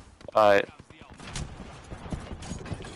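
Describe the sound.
Video game gunfire from a shooter match, a few quick shots rattling out alongside a man's voice.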